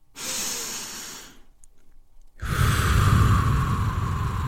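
A single slow meditation breath: a soft, hissing inhale, a brief pause, then a longer, fuller exhale that is louder and breathier, heard alone without talk.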